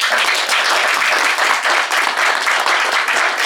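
Audience applause welcoming the teams at a panel game show, a dense, steady wash of clapping that holds at an even level through the whole clip with no voices over it.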